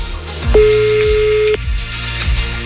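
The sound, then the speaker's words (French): Ringback tone of an outgoing telephone call: one steady mid-pitched tone lasting about a second, set against low thumping sounds in the background, with no talk. “Ça sonne. J'espère que la personne va décrocher.”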